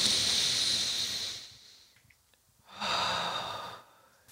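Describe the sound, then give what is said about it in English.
Someone draws a deep breath in as a long, airy hiss that slowly fades, then after a short pause lets out a second, briefer breath, all quiet. “I think we all need to take a collective deep breath right now. Okay. Ready? And in.”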